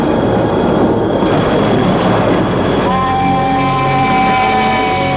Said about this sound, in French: Le bruit du train lui donne le vertige.